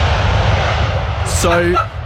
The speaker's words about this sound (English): So the wheels have touched down, and I thought, this is an historic moment.